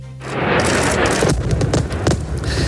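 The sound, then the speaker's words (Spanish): Explosions destroy a bridge near a city during wartime, a loud, sustained, deep rumbling roar with crackling bursts that barely lets up for the whole stretch. “Este es el sonido de las explosiones que han destruido el puente de Casmilla, cerca de Tiro.”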